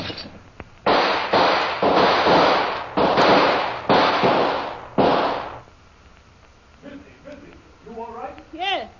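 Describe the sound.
Gunshots are fired through a window: a series of loud, sharp, crackling blasts for several seconds, then quieter rustling and voices toward the end.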